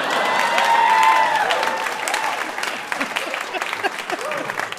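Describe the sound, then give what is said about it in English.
A trivia-night audience cheers and applauds after a correct answer, a loud burst of clapping and shouts that peaks early and then settles into a lighter, scattered patter of hands. “People cheered for that. Yeah. People cheered for World War One.”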